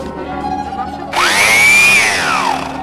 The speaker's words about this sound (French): Ça marche. Bravo. Super. Voilà. Une ponceuse toute neuve.